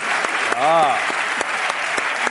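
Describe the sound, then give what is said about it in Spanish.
A crowd applauding with steady, dense clapping throughout, and a brief voice heard over it. “un aplauso para Belén”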